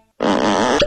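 One loud, buzzy fart sound effect lasts about half a second after brief silence and ends abruptly.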